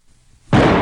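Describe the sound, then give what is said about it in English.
A single sudden revolver gunshot during a game of Russian roulette. It erupts as a loud, full-bodied bang out of near silence and holds its roar to the end. “Spin cylinder. Cock the gun. Hold the gun to your head and pull the trigger. I go first. Good luck.”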